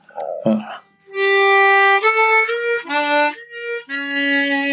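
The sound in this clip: A harmonica plays a smooth legato melody mixing blown and drawn notes. Loud, sustained reedy tones shift through a few pitch changes, heard alone without talk.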